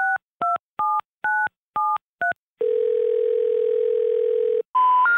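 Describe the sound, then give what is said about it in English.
A telephone number is dialed on a keypad: six quick two-tone beeps, then a long steady tone lasting about two seconds, then a brief final tone that steps up in pitch. “We're sorry, the number you have dialed is not in service at this time.”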